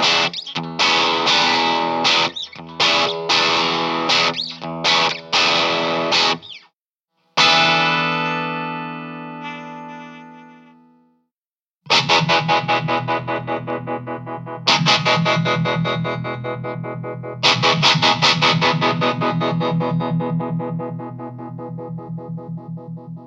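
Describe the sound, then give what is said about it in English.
Electric guitar played through a Spaceman Delta II tremolo pedal, its throbbing pulse applied mostly to the low frequencies. Fast choppy strummed chords give way to ringing chords that decay, with brief silences, then more chords ringing out with a wavering tremolo. “The cool thing about this Spaceman Delta II trem, it doesn't just apply trem to your whole signal. Yeah. You can choose. Right now, I'm applying it mostly to the low frequencies.”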